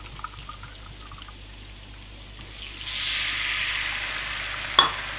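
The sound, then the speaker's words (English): White wine is poured into a pan of bubbling garlic. A quiet simmer swells into a louder, steady sizzling hiss, and one sharp clink comes near the end. “And while it's bubbling, I want to add some white wine.”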